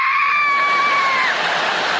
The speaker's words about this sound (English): Would you like some water? Ah! No, thanks, I always scream at the table. Ah! It's too hot.